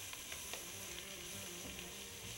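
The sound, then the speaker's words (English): Vegetables sizzle in a pot as curry powder is stirred in for a curried zucchini soup, a steady frying hiss broken by faint, scattered ticks from the stirring. “Next, I'll add 1 tablespoon of curry powder. Any curry powder will do. Stir it up.”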